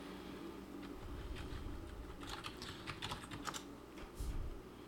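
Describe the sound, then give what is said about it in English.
Quiet typing on a computer keyboard while looking something up, a faint patter of key taps that thickens into a quick burst midway and then trails off. “Just type in anglefish.”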